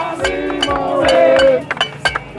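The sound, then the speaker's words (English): Pots and pans are banged in celebration in the streets of Miami, making many sharp metallic clanks and clinks with ringing tones in a busy, uneven rhythm. “Cubans poured into the streets of Miami not only with Cuban flags, but with pots and pans.”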